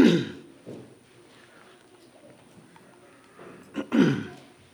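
Throat clearing by someone trying to dislodge something stuck in the throat: a rough burst at the start, a quiet stretch, then a couple of short, harsh rasps close together near the end.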